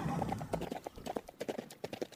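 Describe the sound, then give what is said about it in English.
A horse's hooves clatter as the horse is ridden away, a quick, uneven clip-clop of many faint hoofbeats running through the whole moment. “Tonto will ride to town to the doctor's. I'll be back soon with Thunder.”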